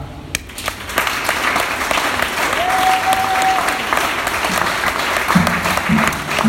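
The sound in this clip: An audience applauds during a sermon, with steady, dense clapping that holds at an even level throughout.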